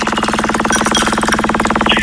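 A prize wheel spins in a giveaway game for zoo tickets, giving rapid, even ticking that runs loud and continuous with a steady rhythm and no talk over it.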